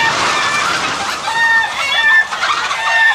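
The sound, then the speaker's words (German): A rooster crows and clucks loudly as it is carried back to the henhouse, giving a continuous stretch of harsh, overlapping calls with no pauses. “Maria bringt den Hahn zurück in den Hühnerstall.”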